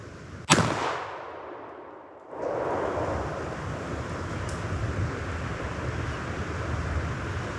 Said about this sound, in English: Yep, we got him. Boy, that was a long shot. That was a good shot.